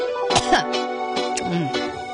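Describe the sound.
A person coughs and clears the throat in a few harsh, raspy bursts, mixed with short voiced groaning sounds, as if worked up and exasperated, with no words spoken.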